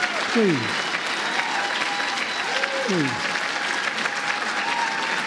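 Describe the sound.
Applause from an audience warmly welcoming President Joe Biden as he takes the stage to speak about his proposals for the Supreme Court; the dense, even clapping holds at a steady level throughout.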